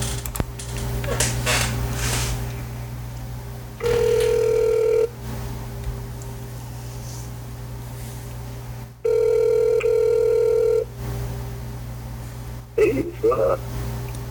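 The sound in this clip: A telephone rings back during an outgoing call: two long, steady electronic ring tones separated by a pause, over a constant low hum, with brief scattered noises near the start and end.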